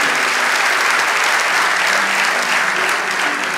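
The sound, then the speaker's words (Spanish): Church audience applauding during a Spanish-language sermon: a dense, continuous wash of clapping that stays steady and loud throughout, with no talk over it. “Vamos, fuerte ese aplauso.”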